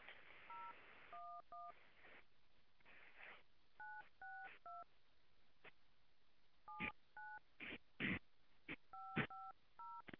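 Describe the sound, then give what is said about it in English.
Telephone keypad tones dial a number on a prepaid calling-card line: a faint series of short two-note beeps entered at an uneven pace, mixed with brief bursts of noise between presses. “Please enter the telephone number you wish to dial now.”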